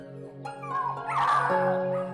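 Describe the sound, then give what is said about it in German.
Puppies whimpering as they lie in straw behind a wooden fence with their mother nearby: thin, high whining tones that waver and overlap continuously, fairly loud, with no talking. “Hundewelpen!”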